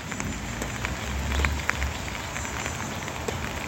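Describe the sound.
Steady rain falls during a prayer gathering, a dense, even hiss of drops with a fine patter of small ticks that stays fairly loud throughout and swells slightly near the middle.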